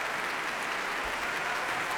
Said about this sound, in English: Yurovsky applauding Babouzet. He shakes hands with the percussionists, waves to the timpanist to the other side of the piano.